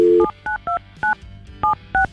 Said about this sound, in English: We're going to call him right now. He has a phone number. We have his phone number.